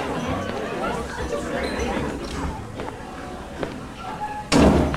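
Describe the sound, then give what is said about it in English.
A restroom stall door opens with a single loud bang near the end, after several seconds of background chatter and scattered light knocks. “She opens a stall door.”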